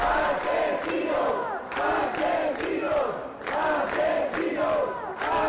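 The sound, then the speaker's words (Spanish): Protesters outside the Spanish Congress shout in indignation after a minute of silence, a loud, sustained crowd roar with rhythmic surges like chanting that rise and fall throughout. “Rápidamente los acampados en Sol se dirigieron hacia el Congreso, donde tras guardar un minuto de silencio estalló la indignación.”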